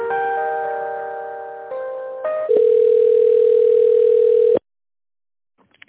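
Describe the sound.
Telephone tones play while a call is transferred: a steady multi-tone chord, then brief shifting tones, then a long buzzing single tone that cuts off abruptly into silence, with a few faint clicks after.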